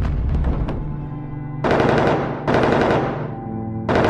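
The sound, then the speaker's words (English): Machine-gun fire aimed at a plane during an air attack on a B-17 bomber. A few loud, sharp rattling bursts cut over a steady droning engine hum. “A light flashes. Smoke bursts from the distant plane. More lights flash as shots hit the plane again.”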